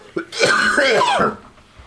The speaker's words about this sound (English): As I was mentioning during the break to Yvonne, I keep coughing. I think it's still just allergies, and I still have the damn Christmas tree in the house.